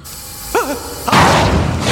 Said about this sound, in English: A press slams dough on top of them, and an arm pushes their pan into a dark chamber.